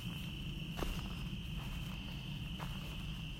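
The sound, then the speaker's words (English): Careful footsteps outdoors on the way back to a house, two faint, soft steps spaced well apart beneath a steady high chirring of crickets. “I'm being very careful walking through this. I'm on my way back to the house.”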